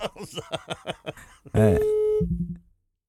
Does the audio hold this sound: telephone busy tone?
yes